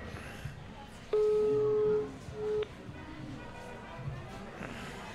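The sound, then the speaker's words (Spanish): A telephone busy signal sounds on a call that does not get through: a steady mid-pitched electronic tone holds for about a second, then a shorter tone follows, over a low, noisy background. “Está comunicando.”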